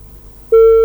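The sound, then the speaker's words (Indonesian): A busy tone sounds after a phone call disconnects: a single steady electronic beep, clear and fairly loud, lasting about a third of a second after faint background hum. “Oke, teleponnya terputus nih pendengar.”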